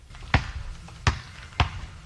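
A basketball bounces three times, each a hard, dull thud at roughly even intervals, heard alone with no talking.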